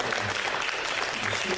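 Applause during a church service, a short, continuous wash of clapping that holds a steady level from start to finish.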